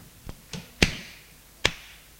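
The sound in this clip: A slap across the face during a heated domestic quarrel, heard as a few faint, sharp smacks spaced apart, the strongest two crisp and brief.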